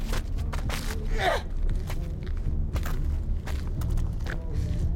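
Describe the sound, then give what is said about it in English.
A person runs, making a quick, steady series of thudding footsteps over a low background rumble. “She runs and throws it.”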